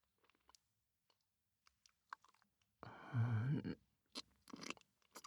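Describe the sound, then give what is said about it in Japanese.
Close chewing and crunching of a bite of food: scattered small wet clicks, then a louder sustained crunching burst mixed with a low voiced tone, followed by a few more crisp bites and crunches. “でもまだ食べ足りないので、もう一口。”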